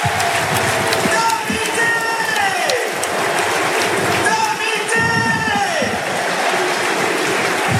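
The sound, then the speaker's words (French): A stadium crowd gives an ovation at Aimé Giral as a rugby player leaves the field. The roar is loud and continuous from start to finish, with applause and cheering throughout. “Allez, l'ovation pour Tavi Tevere-Damou, un mec humainement exceptionnel.”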